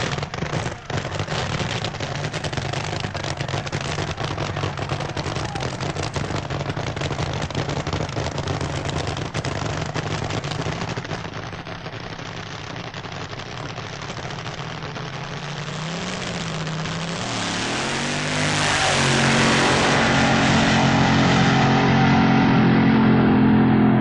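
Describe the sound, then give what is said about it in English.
Roaring engine noise from nitro-burning Top Fuel dragsters rated above 2,000 brake horsepower during a semi-final drag race. The dense, loud roar holds steady, dips briefly midway, then swells louder and stays strong through the final seconds. “Now it's Top Fuel Dragster time. These nitro-burning engines develop over 2,000 brake horsepower.”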